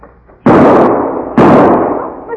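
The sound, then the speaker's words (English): Two loud rifle shots ring out about a second apart, each a sharp, heavy crack followed by a long, broad rumbling decay. “Keep down. I'll see if I can spot the smoke of his rifle.”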